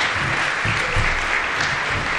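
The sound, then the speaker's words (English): Crowd applause at a county event for local government and construction company sponsors: sustained, loud, many-handed clapping that holds level for the whole stretch, with a soft low rumble beneath and no voices. “Let's give them all a big round of applause.”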